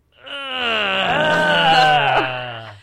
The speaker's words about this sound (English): Groan.